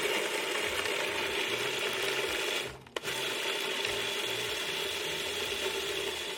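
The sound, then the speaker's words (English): A food processor chopping roughly cut carrots, a loud, steady grinding whir with rattling blades that cuts out briefly near the middle and then resumes at full strength. “I really like using the food processor. It's going to do the work for you. So here we go, bit of noise.”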